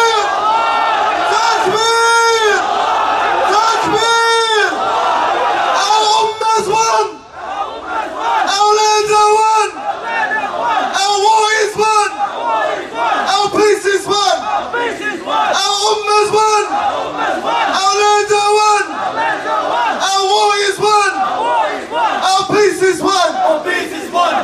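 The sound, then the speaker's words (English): A large crowd shouts the takbir, Allahu Akbar, in loud unison chants repeated many times in a steady rhythm, each rising as a roaring collective burst. “So let the world hear our takbir. Takbir!”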